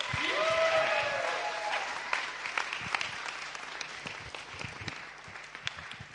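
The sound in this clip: Audience applause welcomes a speaker at a morning gathering: dense, sustained clapping that holds steady for several seconds with no talk over it.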